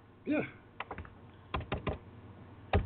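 Typing on a computer keyboard: a few sparse keystroke clicks in short irregular bursts, separated by quiet gaps.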